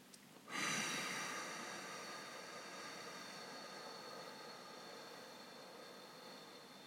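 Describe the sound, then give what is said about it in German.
A long, slow exhale through pursed lips during a breathing exercise, a soft airy hiss that starts abruptly and gradually fades over several seconds, heard alone and quietly. “Wir starten allerdings nicht mit der Einatmung, sondern mit der Ausatmung durch den gespitzten Mund. Atme dich mal aus und spitz dabei die Lippen.”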